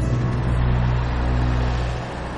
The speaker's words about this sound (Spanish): El autobús circula por una carretera que cruza una de las llanuras de Israel.